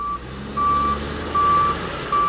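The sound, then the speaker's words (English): Reversing beeps from heavy equipment, including backhoes, clearing a landslide on a highway: a repeating, evenly spaced high-pitched tone sounds in a steady on-off rhythm over a low diesel engine rumble. “State Department of Transportation workers used backhoes and other heavy equipment to clear the landslide between 6 and 7 Mile Mitkoff Highway throughout the day.”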